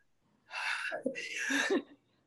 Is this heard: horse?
no